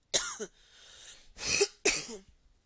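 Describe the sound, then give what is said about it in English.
Coughing up phlegm and clearing a congested throat, with three wet, rough bursts separated by a raspy gap. “Oh, I wish I could have spit that out. Oh, ew. I'm sorry. I have phlegm.”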